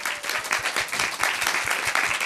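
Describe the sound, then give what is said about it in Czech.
Audience applause after a band's live set: dense, steady clapping from many hands fills the whole stretch at an even level, with no voices standing out. “tak potlesk ještě jednou, prosím.”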